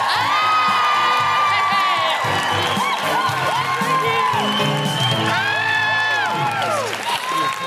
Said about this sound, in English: Put your hands together and make incredible Glasgow welcoming noises for the wonderful Alison Spittle.